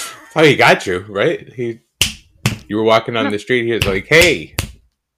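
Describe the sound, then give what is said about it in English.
A few sharp, loud finger snaps crack out while people talk over them. “My husband's snaps are borderline assault. They're too loud.”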